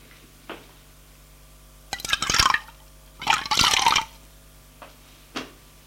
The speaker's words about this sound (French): Elle lui met un bol devant lui, et le café est bouillant. Attends, c'est bouillant. Et elle se sert elle aussi.